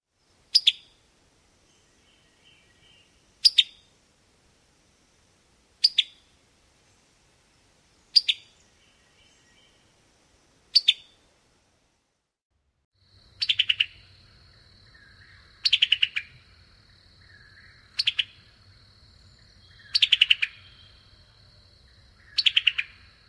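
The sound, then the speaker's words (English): Summer tanager call notes repeat as a series of short, sharp chirps spaced a couple of seconds apart, some sounding doubled. A faint steady hum runs underneath during the second half. “So let's listen to their call notes. Here is the summer tanager call.”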